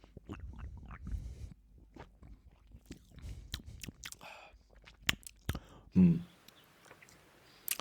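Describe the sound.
Someone chews a bite of pomegranate, giving a series of soft, crunchy bites and wet mouth sounds in an irregular rhythm. The chewing is quiet, with a few sharper crunches near the end.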